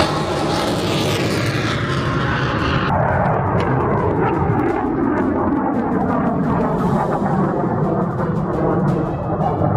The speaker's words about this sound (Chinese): 可以看到我们的射手现在在瞄准这一枚防空导弹进行一次射击的热身，再次命中目标。